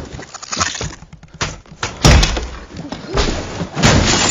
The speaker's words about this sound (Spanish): Newt rompe el cristal con su varita y sale corriendo tras Dural.